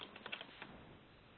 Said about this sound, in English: I'm typing this into the notes as well